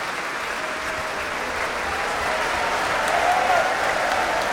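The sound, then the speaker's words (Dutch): Dense, steady applause from a concert audience after a performance of Berlioz's Symphonie fantastique, honouring the solo oboist and clarinettist, swelling slightly louder partway through with no voices above it. “Groot applaus nu voor Alexei Ogrinchuk, de solo-hoboist. En ook voor klarinetist Carlos Ferreira.”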